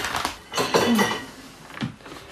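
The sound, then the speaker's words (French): Dishes clatter as a small plate is fetched to hold pâté, with a few light clinks and knocks of crockery in quick succession. “Oh, il me faut une petite assiette pour mettre le pâté.”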